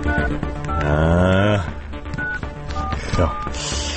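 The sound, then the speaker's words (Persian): Keypad tones of a telephone number being dialed: a few short, steady electronic beeps at irregular spacing, partly masked by a voice and other busy background sound. “بذار من شماره این خبرنگاره رو بگیرم.”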